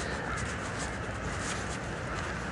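A large flock of blackbirds calls at sunset, a dense, continuous wash of overlapping caws, steady and fairly faint throughout.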